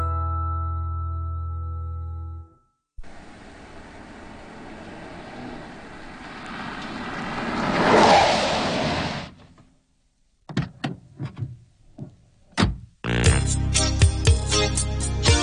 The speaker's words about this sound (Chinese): 听到一个系架车驶埋嚟，开车门上车闩门嘅声音啊！呢个咧系的士